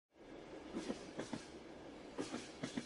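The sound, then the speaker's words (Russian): Train wheels clatter on the rails as a train slowly rolls along. Paired clickety-clack beats, a few of them, rise over a steady rolling rumble. “поезд дернулся, медленно покатил по рельсам и опять застучали колеса.”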